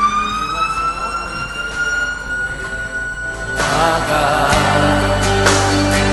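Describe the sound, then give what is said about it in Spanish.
An emergency vehicle's siren passes along Concha y Toro avenue. Its steady wail slowly rises in pitch and then grows much louder midway as a heavy engine rumble joins it. “se siente muy fuerte la sirena que pasa, que está aquí justo la avenida Concha y Toro”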